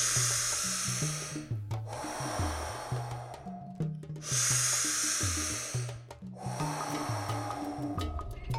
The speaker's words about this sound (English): Maximizing each inhale and each exhale.